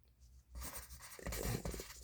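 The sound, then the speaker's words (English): Handwritten notes scratched onto paper with a pen, the nib dragging in a continuous rough, scratchy stroke for about a second and a half after a quiet start, with no talking. “I got to make sure to write the shit down because next week we're going to be lost.”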